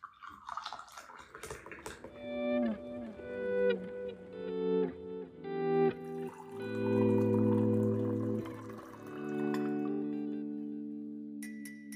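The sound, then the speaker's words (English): Tea being poured into a cup, a ringing, tonal liquid sound in several short pours followed by a longer, steady stream that slowly fades. “Okay, sorry, I'm gonna pour myself some tea. Apologies for the noise.”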